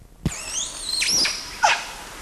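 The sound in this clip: An adult male animal squeals in high, wavering tonal cries after a sharp onset. During the squeal, another male gives a single short bark. Both sounds are fairly faint.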